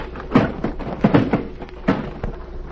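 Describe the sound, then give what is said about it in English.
A heavy wooden packing case labeled typewriters is dropped beside a ship's gangplank and breaks open, giving several loud knocking thuds and cracks in an irregular sequence. “It's labeled typewriters, and it weighs too much for the number its size would contain. I think this is the packing case I'll drop.”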